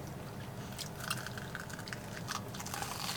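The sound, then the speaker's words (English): Faint chewing and crunching of spicy hot Cheeto snacks, steady mouth noises with a few sharper crunches scattered through, no talk. “Just no, this is the spicy Cheeto. Oh, it is? Yeah, this is the hot Cheeto.”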